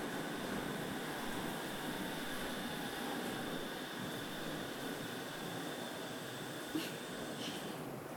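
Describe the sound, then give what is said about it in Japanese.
A monorail train pulls into a station at the start of a trip to Enoshima. A quiet, steady electric hum with a faint whine holds throughout, with one small click near the end. “あ、来ましたよ、モノレール。”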